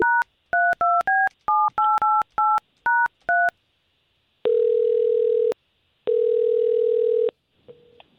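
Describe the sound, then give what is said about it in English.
Telephone number dialing: a quick run of short touch-tone beeps at varying pitches, then two long, steady, even line tones separated by a short pause, and a faint brief tone at the end. “I'm going to take the number that you gave me for Joey. I'm going to talk to him for a little bit”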